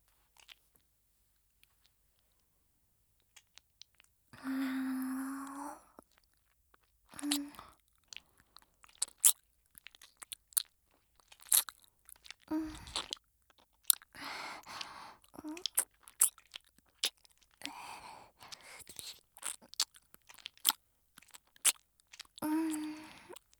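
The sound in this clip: ASMR ear-eating mouth sounds: quiet wet crunching, nibbling and clicking in many irregular bursts, with a few brief breathy voiced moments between them.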